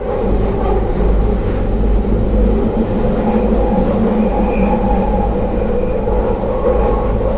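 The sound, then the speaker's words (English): A London Underground Circle line train on the move gives a steady, loud rumbling roar that continues without a break, with no voices. “That's Circle line.”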